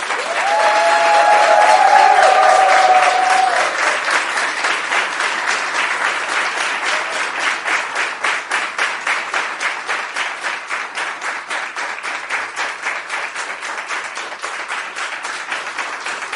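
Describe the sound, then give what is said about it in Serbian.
A crowd at an awards presentation gives a long round of loud applause. Dense clapping at first, with a brief whistle-like tone early on, settles into steady rhythmic clapping in unison that slowly fades. “tako da molim za jedan veliki aplauz.”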